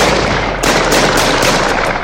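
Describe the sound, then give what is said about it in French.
Gunshots fired at a person, several sharp cracks in fairly quick succession, standing out over a loud, dense, continuous noise bed. “Charlie l'a compris et tire 4 nouvelles balles en direction de Mustang.”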